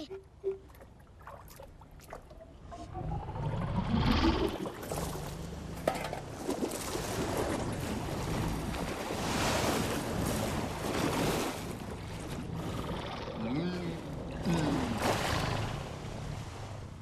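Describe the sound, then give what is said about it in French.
Ocean waves surge and wash continuously for about seventeen seconds, swelling to a louder rush around four seconds in, with soft tonal sounds drifting through the roar. “Bizarre cette vague.”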